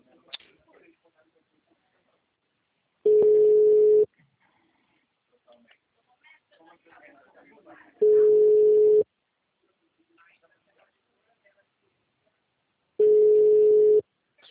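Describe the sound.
Telephone tone after a dropped call: three steady, mid-pitched beeps, each about a second long, evenly spaced several seconds apart, with faint scattered background noise between them.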